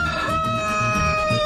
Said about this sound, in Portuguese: Ô, meu galo velho, vai informar a hora certa, meu galo velho?